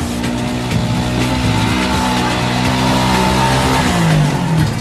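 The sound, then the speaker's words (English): Engine of a Land Rover four-wheel drive revving, a loud, continuous mid-pitched drone whose pitch wavers and shifts throughout, with no voices over it. “So we got a Land Rover. Excellent, Land Rover.”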